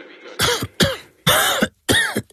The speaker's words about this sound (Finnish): älä suotta köhi.